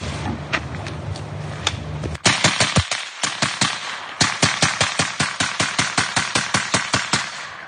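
Rapid automatic gunfire, many loud, evenly spaced shots in long runs broken by a brief pause, with a low hum underneath at the start.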